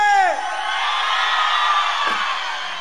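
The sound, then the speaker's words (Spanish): Audience cheering loudly for a singer. A high shout falls away into a sustained, dense roar of yelling and whooping that stays loud to the end. “Para que Alicia nunca se olvide, una bulla bien fuerte.”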